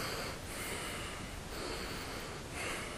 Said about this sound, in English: let me just become aware of my breath movement. So you do like this.